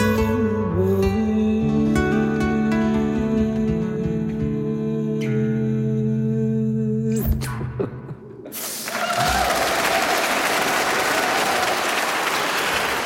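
An audience applauds after a live song performance in a museum hall. The final music notes fade out and give way to dense, steady clapping that continues to the end.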